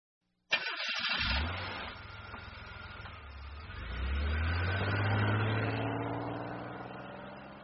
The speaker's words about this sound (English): We drive to the lake and we set up camp.